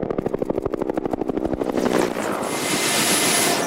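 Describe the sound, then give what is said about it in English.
A Huey helicopter in flight during a rhino game capture, its loud rapid rotor thumps pulsing evenly before blurring into a steady, roaring engine wash. “We were right behind them in the Huey with Jacques Flamand and the game capture team.”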